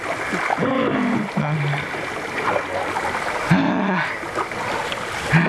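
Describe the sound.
A boat paddled slowly through water, with soft splashing and a steady watery wash throughout and a few brief tonal sounds over it.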